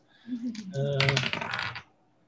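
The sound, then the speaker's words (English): A single die rolled for a persuasion check in a tabletop role-playing game: a quick clattering rattle that lasts about a second and a half. The sound is faint and busy with small clicks, then stops. “I'm going to roll the one that actually rolled better last time.”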